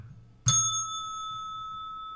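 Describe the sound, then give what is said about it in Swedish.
A reception desk bell struck once, giving a bright metallic ding that rings on as a sustained pure tone and slowly decays, with a faint low murmur before the strike. “Jag ser någonting som ser ut som en pling. Ah, sån där plinga, receptionsplinga. Exakt, en sån här.”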